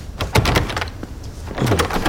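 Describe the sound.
Two people force a stuck door open until its hinges break, giving strained creaks, scrapes and dull thuds that come in uneven bursts at moderate loudness.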